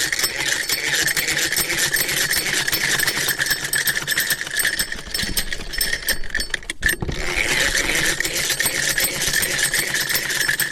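A sewing machine stitches quickly in a woman's home tailoring workshop, its needle hammering in a fast, even mechanical rhythm. The run breaks off for a split second, then picks up again at the same steady pace.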